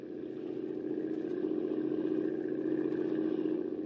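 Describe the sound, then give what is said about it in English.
A motorboat's engine drones on the water, a steady mid-pitched hum that holds at an even, fairly loud level throughout, with no voices over it. “You better shut off the motor”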